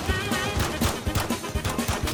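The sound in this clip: Gunfire in the Call of Duty video game: a rapid, steady stream of sharp shots, loud and evenly paced, with no talk over it.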